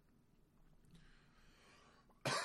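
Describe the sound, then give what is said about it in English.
A smoker's harsh cough bursts out once, loud and sudden, at the very end after a couple of seconds of near-silence. “Excuse me. Got the fucking smoker's hack over here.”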